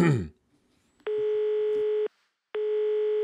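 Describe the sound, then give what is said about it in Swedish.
Ringback tone while placing a phone call: a brief bit of voice, then two steady, buzzy tones of about one second each, separated by a short silence. “Jag ska ta och ringa honom och säga det.”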